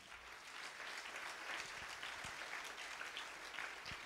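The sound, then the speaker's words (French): A church audience applauds and cheers in praise of the Lord during a sermon, producing a dense, steady wash of clapping that runs faintly and evenly throughout. “Quelqu'un acclame le Seigneur.”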